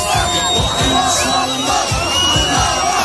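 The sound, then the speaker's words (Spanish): A crowd of Palestinians celebrates in the Gaza Strip. A dense, unbroken roar of cheering, shouting and high whooping cries blends into a loud mass of voices. “Este es el sonido de la alegría en la Franja de Gaza, donde miles de palestinos celebraban ayer el fin de la destrucción”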